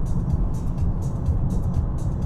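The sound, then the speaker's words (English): Steady engine and road drone from a car cruising at 100 km/h in fifth gear at about 2500 RPM under light load, a constant low rumble with faint airy hiss on top. “100 kilometers an hour. Fifth gear, 2500 RPM. No real demand for power at the moment.”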